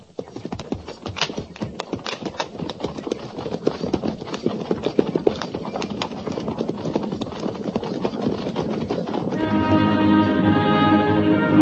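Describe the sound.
Cavalry horses trotting along the Oregon Trail: a dense, steady run of rapid clip-clop hoofbeats throughout. A sustained tonal drone joins over the last two seconds.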